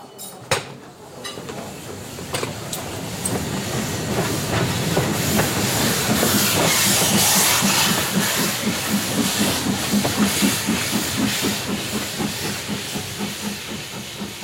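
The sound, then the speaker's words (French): Steady hiss and rumbling rail noise inside a freight wagon standing in the station at Treblinka, Poland, in summer 1978, with a fast, regular pulsing that rises after a quiet start and stays loud throughout. “Été 1978, intérieur d'un wagon de marchandises à l'arrêt en gare de Treblinka, Pologne.”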